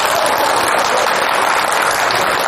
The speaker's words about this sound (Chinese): 我说大伙鼓掌都鼓掌。